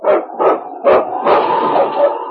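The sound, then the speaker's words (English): A husky sled dog, a lead dog, barks three sharp times, then gives a longer, drawn-out whining yelp, loud and alone. “It's Yukon King, swiftest and strongest lead dog in the Northwest”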